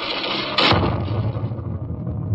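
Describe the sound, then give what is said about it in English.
Torpedoes shot and blown up: one sudden heavy blast, loud and broad, trailing into a low, rolling rumble that slowly dies away. “Right on the button. There they go. Oh, brother, that one's shooting, and what I mean shooting. You blew up both those torpedoes.”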